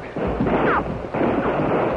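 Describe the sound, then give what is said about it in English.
Many guns fire at once at night, heard as two heavy, booming bursts of gunfire one after the other. Each burst is loud and rumbling and lasts nearly a second. “50 guns blasted the silence of the night”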